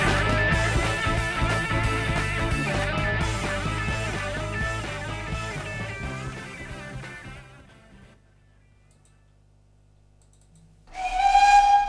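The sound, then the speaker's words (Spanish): A steam train whistles as it departs: after a long stretch of busy, dense sound and a quiet gap, a single loud, steady whistle blast bursts in at the very end. “en cuanto pite su salida, este tren tan mágico, es de estos que tiran humo y meten un barullo cuando arrancan”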